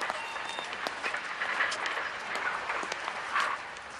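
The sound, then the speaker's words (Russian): A train pulls away from a station, giving off a steady, dense rattling clatter full of rapid clicks that continues evenly without a break. “Анзор подходит к Нюре, целует ее в щеку и убегает в уже тронувшийся поезд.”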